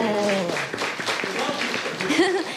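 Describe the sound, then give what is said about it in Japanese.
Applause as a gift is presented to a guest, a scattered patter of sharp claps that holds steady, with voices talking at the start and again near the end. “拍手”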